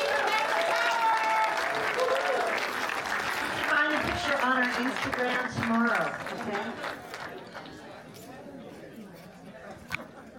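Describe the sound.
Applause and cheering come from a crowd at a sold-out film screening as hosts take a selfie with the audience. Chatter and voices mix in, and the noise fades toward the end.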